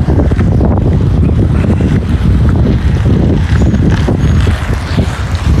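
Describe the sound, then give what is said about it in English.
Strong wind blows across an outdoor parking lot on a sunny day, a loud, continuous buffeting rumble with no pauses and no voices. “Bit of wind today, as you can hear.”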